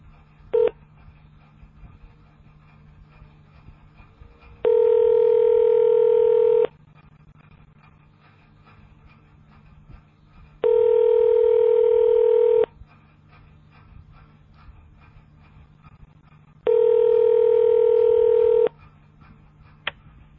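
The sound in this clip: Telephone keypad tones for a phone menu with numbered options for parts sales. Three identical steady two-tone beeps, each about two seconds long, are evenly spaced over a faint low background hum, with no talking.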